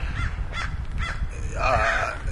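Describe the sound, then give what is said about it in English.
Crows caw loudly in a few sharp, rasping calls, then give a longer, harsher caw, over a low background rumble. “these crows are going crazy.”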